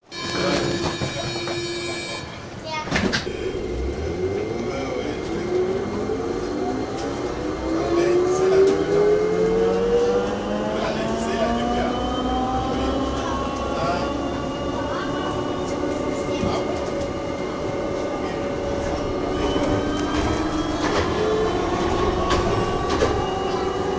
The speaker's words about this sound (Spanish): Bajamos del avión y mediante un monorail nos llevan hasta la terminal principal.